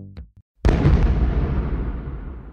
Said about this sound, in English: A stun grenade, also called a flashbang, suddenly overloads our senses. We cannot react.